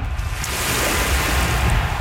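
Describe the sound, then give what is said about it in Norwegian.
Sea waves lap steadily along the Adriatic coast of Croatia, making a continuous wash of water with no distinct breaks or separate splashes. “Bølger, bølgeskulp og krystallklart vann ved Adriaterhavet, Kroatia.”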